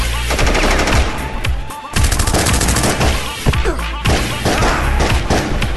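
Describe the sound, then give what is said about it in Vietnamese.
Gunfire erupting in a tri-border region, rapid machine-gun bursts merging into a loud, continuous volley of many overlapping shots with only brief gaps. “Xác nhận cho tiếng chửi thề của Phong, một tiếng súng lệnh đã xé tan cái yên tĩnh của miền tam biên giới. Tiếp theo tiếng súng liền thành nổ như bắt rõ.”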